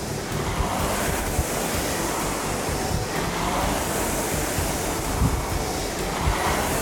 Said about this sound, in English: as you add power, your flywheel sound is gonna go higher, so you be a little bit louder